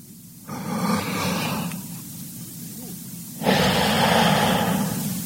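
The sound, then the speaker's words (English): A person takes deep breaths while a stethoscope is placed on their chest: two long, airy breaths, the second louder and starting abruptly, over a steady low hum. “I want you to take a deep breath.”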